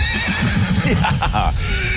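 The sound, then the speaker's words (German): Horses at a large equestrian event give loud, wavering whinnies, several calls following one another closely over a low background din. “So, das sind Pferde.”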